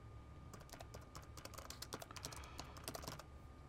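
Someone types on a computer keyboard, producing many light, quick clicks in uneven bursts over a low, steady background hum.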